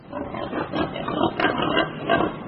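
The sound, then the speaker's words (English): Pigs grunting in rough, low vocal bursts that come in a steady, overlapping run, with one brief higher-pitched cry near the middle and no talk. “These are the pigs helping China's blind to see.”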